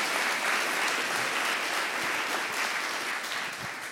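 A church audience applauds in a sustained, dense burst of clapping that stays loud and continuous, tapering slightly near the end.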